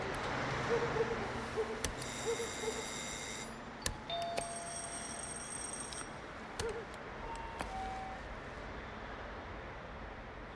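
A doorbell rung at night by a police officer trying to get into a house, sounding as two long, buzzing rings. The rings are quiet against a steady background hiss, with a couple of brief tones between them.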